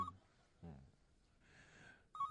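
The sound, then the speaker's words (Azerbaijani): A telephone rings faintly in short bursts of electronic tone, with a brief voice heard between the rings. “Telefona cavab ver.”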